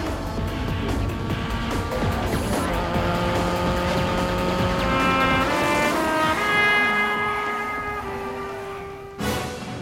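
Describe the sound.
A futuristic, cleaner-running car speeds along in a steady, loud, tonal engine whine with layered droning pitches that holds throughout, then cuts off abruptly near the end.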